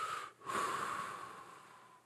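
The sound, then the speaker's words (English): A long, steady breath out follows a brief pause. It starts strong, then slowly fades over about a second and a half as a breathy hiss. “Just breathe for me once ago.”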